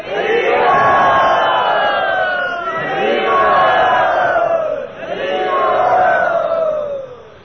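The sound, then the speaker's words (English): A crowd chants Hari Bol to welcome a guest at a Vaishnava gathering, three long, loud sung swells that rise and fall, sustained voices overlapping in unison. “let us welcome him by saying Hari Bol. Matsyavatar Prabhu, let us welcome him.”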